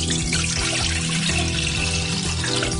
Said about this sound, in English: On a medium heat, we're going to bring 2 cups of milk, which is approximately 500 ml, to a boil.